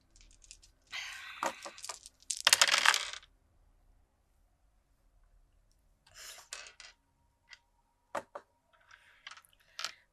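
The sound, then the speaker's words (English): Dice clatter across a surface during a tabletop role-playing game's pool roll: a few sharp rattling bursts, the loudest in the first seconds, then scattered lighter clicks and taps. “I need to make a roll. I need to roll a die.”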